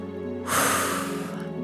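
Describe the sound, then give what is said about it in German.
A single deep breath makes one soft, airy rush lasting under a second, set over a steady tonal drone of background music. “Atme einmal tief ein und tief wieder aus.”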